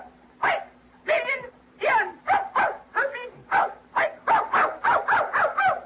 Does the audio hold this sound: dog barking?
yes

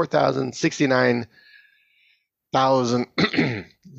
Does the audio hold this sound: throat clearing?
yes

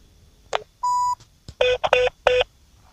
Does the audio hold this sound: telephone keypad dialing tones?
yes

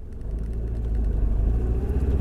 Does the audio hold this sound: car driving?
yes

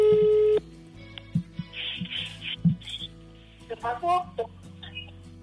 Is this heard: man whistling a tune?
no

